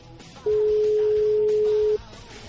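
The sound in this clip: A telephone line rings out unanswered, giving a single steady electronic beep that lasts about a second and a half over quiet background.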